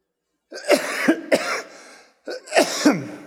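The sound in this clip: Coughing from a tickle in the throat: two short clusters of about three harsh coughs each, separated by a brief pause, with no other sound around them.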